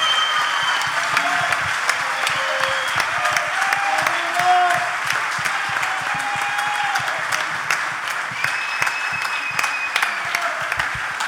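Audience applause at a blues festival: dense, sustained clapping from a crowd that holds steady for about eleven seconds, with faint tonal ringing beneath the claps.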